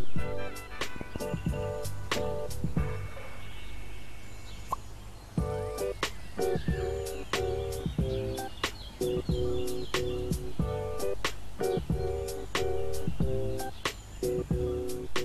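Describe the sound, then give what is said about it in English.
Birds chirping outdoors in a quiet natural spot: many short, bright chirps and calls scattered throughout over a steady low background hum. “I don't know if you can hear the beautiful birds chirping. Give me a second, I will hold the mic a little closer.”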